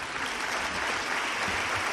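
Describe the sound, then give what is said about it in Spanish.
Sustained audience applause at a pregón ceremony: dense, even clapping that holds at a steady loudness throughout without a break. “le pido un aplauso encarecidamente”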